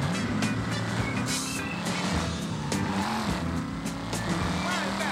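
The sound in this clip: Car engine in a video game, a steady low droning hum as the vehicle is driven, with a few brief higher knocks and rattles over it.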